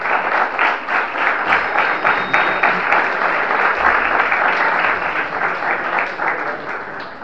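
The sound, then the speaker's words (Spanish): Sustained applause from an audience welcoming a lecturer to a talk, a dense, even wash of clapping that stays fairly loud for about seven seconds without pausing. “presentamos y damos un muy fuerte aplauso al disertante de Córdoba.”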